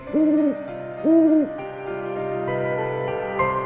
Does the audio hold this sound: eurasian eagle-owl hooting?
yes